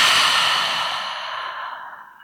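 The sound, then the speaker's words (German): A single deep, breathy exhale through an open mouth, loud at first and tapering off smoothly over about two seconds, as part of a slow relaxation breath. “Einmal tief ein durch die Nase und durch den geöffneten Mund aus.”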